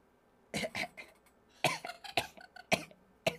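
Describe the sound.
A person coughs several times in short, sharp bursts that come in uneven pairs and singles, separated by quiet gaps.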